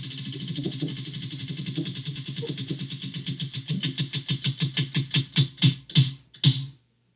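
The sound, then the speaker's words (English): A prize wheel being spun for a merchandise giveaway draw, its pointer ticking in many rapid clicks that gradually slow and grow louder, spacing out more and more until the wheel stops and falls silent. “And now my lovely assistant is going to give the wheel a big spin.”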